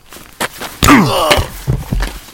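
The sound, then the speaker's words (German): A heavy blow to the back of a man's head lands as a loud, dull thud, followed by a pained groan and a few scattered thumps. “Musstest du so fest zuschlagen? Er blutet am Hinterkopf.”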